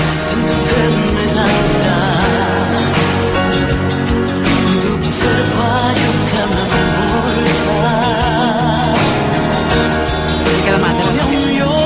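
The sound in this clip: A cover version of a classic rock song, recorded for a charity telethon album, plays as loud, continuous pop music with full band accompaniment and sustained melodic lines throughout.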